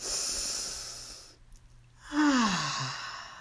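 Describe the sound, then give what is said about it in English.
A deep breath during a guided meditation: a drawn-in breath followed by a long, audible sighing exhale that drifts slightly downward in pitch. “take a deep breath”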